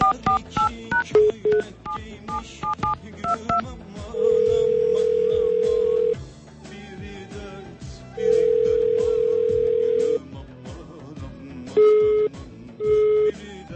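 A telephone is dialed with a quick run of key beeps, followed by two long steady call tones separated by a pause, then a few short beeps as the call goes unanswered.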